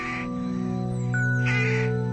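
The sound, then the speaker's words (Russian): Rooks caw at dusk while settling to roost in early spring, a couple of harsh caws over a steady tonal drone. “укладываясь на ночлег, шумно кричат грачи”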